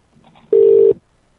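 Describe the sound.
A single short electronic phone tone, one steady mid-pitched beep lasting under half a second, loud and clean after a faint murmur.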